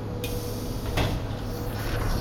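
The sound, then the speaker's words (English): Uptown Q subway train doors slide shut, with a short knock and a louder thud about a second later over a steady, loud rumble of train noise. “Q-train. Uptown. Stand clear of the closing doors.”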